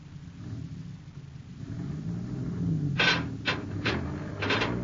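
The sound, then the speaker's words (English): Low, steady engine rumble of a truck being driven forward to pull a beam free. A few short, sharper bursts come near the end. “Tell that driver to move that truck. Yes, Mr. Scranner. All right, Davis, move it. Forward this time.”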